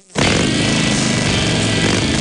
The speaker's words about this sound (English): fire up your Harley